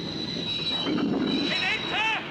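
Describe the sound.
A train braking hard on the rails: a high, piercing wheel squeal runs throughout over a rumbling roar, with wavering shrieks rising and dipping near the end.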